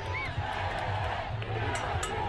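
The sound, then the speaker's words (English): Crowds cheer in the streets of the capital, Santiago, after a presidential election victory, with supporters hugging and waving flags. A dense, continuous roar of many voices carries scattered shouts and stays loud throughout. “supporters were out cheering, hugging, and waving flags in the streets of the capital, Santiago.”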